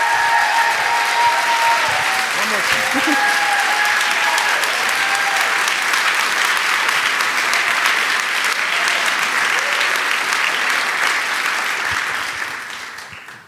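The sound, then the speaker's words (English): Applause from a church audience welcoming a guest preacher: dense, steady clapping that holds at full strength for about twelve seconds, then quickly dies away at the end. “And so let's give her the biggest ovation we possibly can.”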